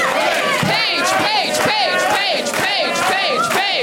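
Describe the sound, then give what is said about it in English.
An audience chanting a name in unison, shouted loudly and continuously in a repeated rhythmic pattern of rising and falling voices throughout. “That might be the first chant for an audience member.”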